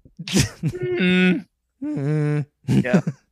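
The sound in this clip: A voice imitates Marge Simpson's groaning noise: two sustained, low, nasal voiced groans, the first about half a second long and the second slightly shorter, with talk before and after.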